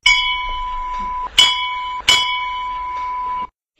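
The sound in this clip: A school bell rung loudly gives a bright, steady metallic ringing tone, renewed by a few sharp strikes, then cuts off abruptly near the end, with no voices.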